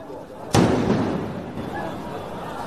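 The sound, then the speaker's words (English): A walkie-talkie explodes among mourners at a burial in Beirut: one sharp, loud blast that cuts in suddenly and fades into a noisy, rumbling background. “Another exploding device, this time a walkie-talkie, one of a number that blew up in a similar way to yesterday's pagers.”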